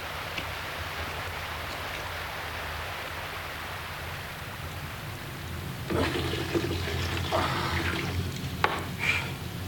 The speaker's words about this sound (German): Regen? Ja, wir können den auffangen. Wir müssen jeden Topf und jede Tasse aufstellen.